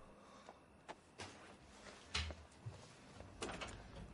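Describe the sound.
A door closes as someone leaves a room, heard as a few soft, faint knocks and clunks spaced apart in an otherwise quiet scene.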